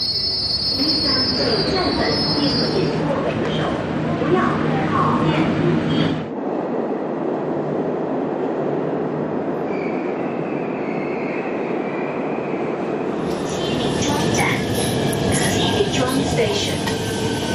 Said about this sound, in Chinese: 开往安河桥北及沿途各站的列车将进站